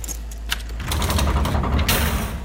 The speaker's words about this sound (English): Guards, open up this cell.